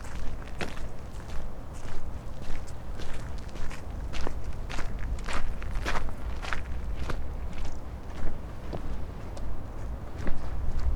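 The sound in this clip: Footsteps walking toward an old ruin: many firm, evenly spaced steps in a steady rhythm over constant low background noise.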